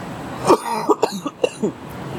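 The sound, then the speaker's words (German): A coughing fit from a chili stuck in the throat: a quick, irregular run of several harsh, rasping coughs, some close together, with a short throaty catch between them. “Ich mach mal den Anfang, bis der sich zu Ende gehustet hat.”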